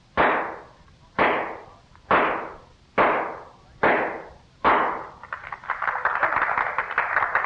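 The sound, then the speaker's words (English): Six sharp shots from a .38 caliber revolver are fired into a pine board to drive a spike, evenly spaced about a second apart, each with a quickly fading tail. A continuous crackling wash follows the last shot. “Finally, Miss Oakley will drive a spike into a pine board with six shots from a .38 caliber revolver from a distance of 20 paces. Are you ready, Miss Oakley? Ready. Fire!”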